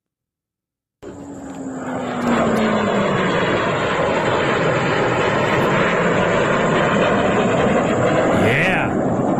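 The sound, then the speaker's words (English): A joint strike fighter jet flies past, its engine roar starting abruptly and building into a loud, steady, sustained rumble with a thin high whine riding on top. One voice speaks a single brief word. “It's a joint strike fighter on its way back from Tehran after delivering a huge payload.”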